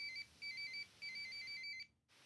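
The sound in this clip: A phone rings with a faint electronic trilling ringtone in several repeated bursts separated by brief pauses, then cuts off abruptly near the end.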